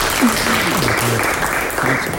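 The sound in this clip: An audience applauds to welcome a guest, an actor and theatre director, onto a talk show. A steady, even wash of clapping runs throughout, with voices speaking over it.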